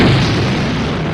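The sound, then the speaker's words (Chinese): A deep, heavy detonation boom from a 1964 atomic bomb test, one sustained low rumble that fills the short clip and slowly tails off, with no voices. “4321起爆。”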